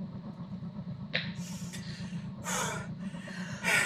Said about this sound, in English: We're out of breath after trying to beat the crap out of each other.